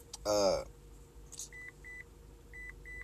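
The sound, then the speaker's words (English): Electronic beeping: four short, steady mid-high tones, evenly spaced and fairly faint, following a brief loud burst of voice at the start. “stop fucking beeping”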